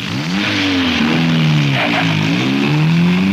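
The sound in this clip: A boat engine revs and shifts into gear, a loud continuous drone whose tone wavers and dips in pitch several times over a few seconds, with no talking.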